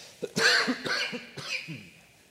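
A person clears their throat with a few rough, raspy coughs, each a short burst. The coughs are fairly faint and heard alone, then taper off into quiet.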